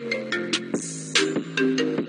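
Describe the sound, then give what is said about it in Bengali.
Mobile phone ringtone of an incoming call from an unknown number, a bright electronic melody of short pulsing notes over a steady tone, loud and alone. “এখন আবার কার phone এলো রে আরে এ তো unknown number”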